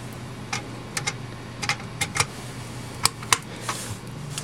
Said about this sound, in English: To do that, on the bottom riser card, I'm going to set two more memory modules in place.